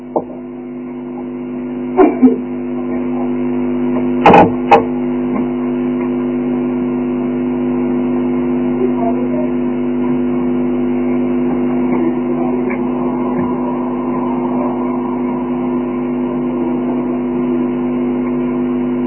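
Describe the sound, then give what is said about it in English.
A car with a noisy exhaust pipe gives a steady, loud, low engine drone that holds for the whole stretch, with a few brief sharp clicks near the start. “The biggest gangster in Mexico just turned up with a noisy exhaust pipe again.”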